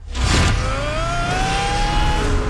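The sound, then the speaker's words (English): Racing karts in a Mario video game on a colorful rainbow track drone loudly and steadily, a whining engine tone climbing slowly in pitch after a brief burst at the start. “They got the carts. Yeah. Riding on Rainbow Moon.”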